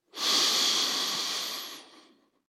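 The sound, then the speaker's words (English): A single deep breath in, heard alone as a steady airy hiss that rises quickly, holds, and then tapers away to silence. “And breathe in.”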